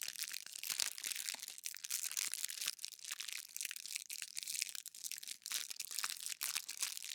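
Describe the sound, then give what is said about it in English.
Crinkling of a fortune cookie wrapper for ASMR: a faint, continuous crackle of many small rustles and crunches, irregular and unbroken, with no voice. “That's not me opening it. That's just me crinkling it. It's like a little puffy.”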